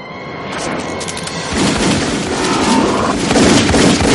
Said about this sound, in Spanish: El agente baja del helicóptero. Neo le dispara.